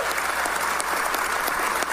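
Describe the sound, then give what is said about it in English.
Audience applause at a university athletics event welcoming a new men's basketball head coach: a dense, steady wash of clapping holds at an even level for the whole stretch, with no voices over it. “Yes, another round of applause.”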